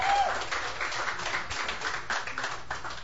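Applause from an audience welcoming an opening act at a songwriter's stage show: dense, steady clapping from many hands, holding loud and even throughout.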